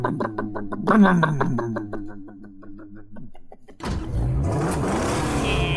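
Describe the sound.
A vehicle engine starts and revs: a low, steady rumbling hum gives way to a louder, rougher surge of revving that holds through the end.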